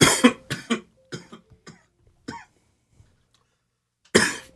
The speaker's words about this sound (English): ever since I saw that fucking NWA movie, every little cough I get, I feel like I should probably go to a doctor